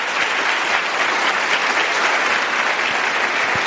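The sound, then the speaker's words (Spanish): Audience applause for first-time attendees at a gathering, a dense, loud and steady wash of clapping that keeps an even level throughout with no voices standing out. “Los que vienen por primera vez, por favor, un aplauso para ellos que vienen por primera vez.”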